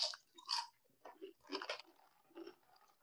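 Crunching of ridged Lay's potato chips, tightly sealed in their bag, comes as a few sharp, dry bursts of chewing and biting spread across the moment, with quiet gaps between them and no talking.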